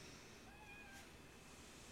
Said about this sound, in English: Cat doesn't like it. Well, nobody asked the cat.